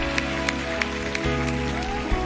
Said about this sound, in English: Come on, let's give the Lord a big clap.